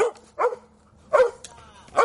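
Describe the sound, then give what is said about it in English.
Dogs barking in the woods: three short, sharp barks come at roughly even intervals, mid-pitched and fairly loud, separated by near-silence. “That's the situation with Frankie, a U.S. veteran who still lives in the woods with her two dogs.”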